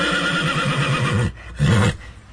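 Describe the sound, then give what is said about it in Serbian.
A horse used in the Alka riding tournament neighs loudly in a long, wavering whinny. It breaks off briefly, then gives one more short, strong burst. “ovo je moj konj. Ma sve skupa 10 svojih konja.”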